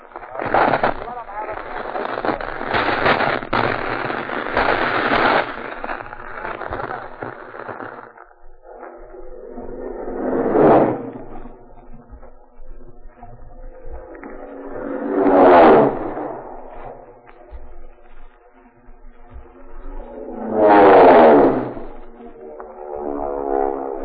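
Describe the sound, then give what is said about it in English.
Four Marine dive bomber planes make a dive-bombing attack: a dense, rumbling engine roar, then three separate swelling passes that each surge to a loud peak and fade. “what you just heard was an actual dive bombing attack on our Vox Pop microphones by four Marine dive bombers”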